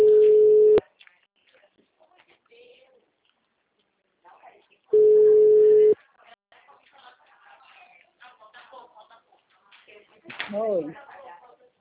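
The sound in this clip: A telephone busy signal after a dropped call sounds as two steady, loud beeps about a second long, separated by several seconds of faint noise, with a voice speaking briefly near the end.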